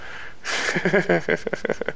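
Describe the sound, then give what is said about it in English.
Coughing right into a microphone: a rough, breathy burst opens, followed by a run of short, sharp coughs in quick succession. “Excuse me, sorry to cough you out there. I bet that's loud on this microphone.”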